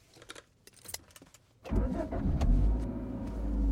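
A car engine starts and runs as the car drives off, preceded by a brief light jingle of keys, then a low, steady engine rumble that builds slightly and continues to the end.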